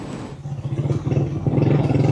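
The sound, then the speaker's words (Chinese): A motorcycle carrying riders toward an earthquake-damaged region makes a low, pulsing engine rumble with a clattery edge, rhythmic throbbing growing stronger and louder in the second half. “27号，总台记者乘坐摩托车向着拉瓜伊拉州行进”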